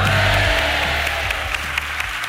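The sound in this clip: A live audience applauds on cue in a dense, loud wash of clapping and crowd noise that holds steady from start to finish.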